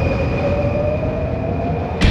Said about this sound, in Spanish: tomamos la línea de metro que nos dejará en pleno Oxford Circus.